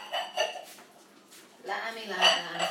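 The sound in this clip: Bowls being handled, clinking and knocking together in a few short bursts, with a quieter pause in the middle before a louder run of clatter.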